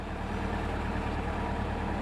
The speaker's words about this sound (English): I'm sitting in the back of a pickup truck being driven through the worst part of Wessington Springs.